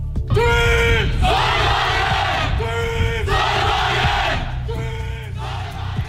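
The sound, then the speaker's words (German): A crowd of voices yells a loud battle cry together, the chant of a student solar car team from Aachen at a European solar car race, with repeated shouted phrases carried in strong unison. “So hört sich der Schlachtruf des Team Sonnenwagen Aachen an.”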